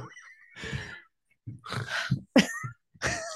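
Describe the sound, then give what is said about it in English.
A person snorts in a few short, harsh nasal bursts separated by brief pauses, like stifled laughter during a blooper take, with no words spoken. “Snorted. You can't do that. Don't snort.”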